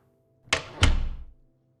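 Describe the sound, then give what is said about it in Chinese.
A door being shut: a sharp click, then a heavier thud that rumbles briefly and fades, alone against near-silence. “然后在某一个瞬间，门被我关上”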